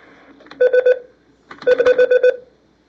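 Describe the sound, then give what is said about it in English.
Telephone keypad dialing tones ring out as three quick beeps, a short pause, then six more in rapid succession, loud and clean with no voices. “Either shy or just continually dialing the wrong number.”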